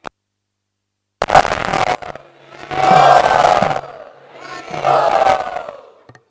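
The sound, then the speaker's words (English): A crowd chants loudly together in gratitude, rising in three swelling waves: a short opening burst, then two longer sustained phrases, with a low steady drone beneath. “And let us all express our gratitude by loudly chanting.”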